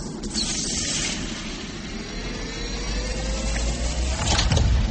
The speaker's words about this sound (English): I'm opening the airlock now.